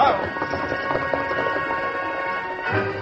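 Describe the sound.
Horses' hooves clatter as a posse sets off riding in a western drama, a run of quick, rhythmic taps that carries on steadily at moderate loudness.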